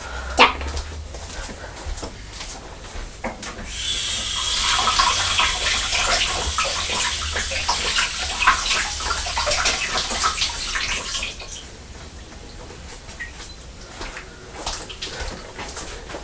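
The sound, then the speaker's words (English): Tap water runs as apple peel is rinsed under it, a steady bright splashing hiss that starts a few seconds in, continues for about eight seconds, then stops. “There we are, that's the apple peel. Now I'll just rinse it under the tap.”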